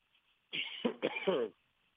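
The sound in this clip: Harsh coughing and throat clearing in a quick burst of a few rough, loud spasms, with nothing else around it.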